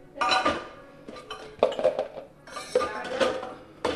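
Dishes and cutlery clatter and clink as breakfast is cleared in a home kitchen in Vestavia Hills near Birmingham, arriving in a few irregular bursts of ceramic knocks and metallic chinks separated by short pauses.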